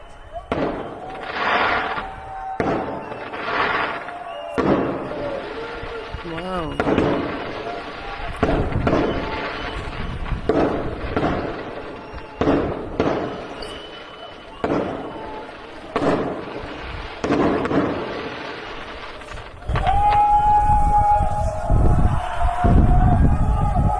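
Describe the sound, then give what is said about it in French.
Fireworks at an anti-prison action in Brussels: many sharp, booming bursts at an irregular pace, ending in a denser, louder stretch of crackling. “Et voici l'audio feu d'artifice qu'on peut retrouver aussi sur le page Facebook de La CLAC, la lutte anticarcérale à Bruxelles.”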